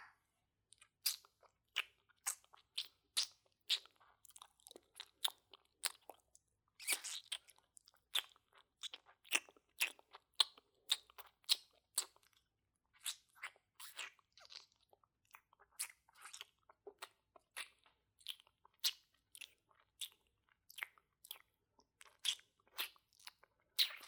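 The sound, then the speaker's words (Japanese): Licking sounds: many quiet, wet clicks and smacks arriving in irregular bursts, with no talking. “じゃあ、舐めるよ。”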